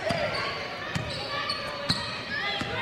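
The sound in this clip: Basketball dribbled during a game: several dull, evenly spaced bounces thud beneath continuous talk and dense background noise.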